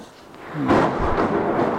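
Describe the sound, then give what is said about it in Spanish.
Thunder rumbling through heavy rain, a deep, broad roar that swells abruptly partway in and holds loud over a steady hiss of rainfall for the brief remainder. “Desde ayer está lloviendo mucho.”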